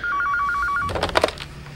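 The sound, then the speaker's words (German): A desk telephone rings with a rapid warbling electronic trill for just under a second, then falls silent as louder clattering noise takes over. “als mein Telefon klingelt.”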